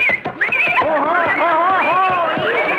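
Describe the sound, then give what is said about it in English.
A horse whinnies in one long, loud, warbling neigh with a wavering, high pitch that rises and falls throughout. “a horse is an amazing animal. It's so huge and tremendous”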